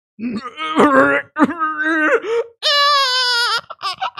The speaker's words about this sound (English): He's actually about to vomit from tears.